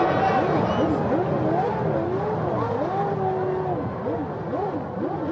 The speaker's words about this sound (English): because there are drivers a lap or so behind the leaders who are still going at racing speed. And they're seeing now their hero come through.